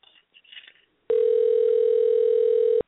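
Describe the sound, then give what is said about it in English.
A telephone dial tone sounds when dialing out: one loud, steady, unbroken tone lasting under two seconds, preceded by a few faint, brief clicks and rustles. “But I'm going to try this dialing out thing.”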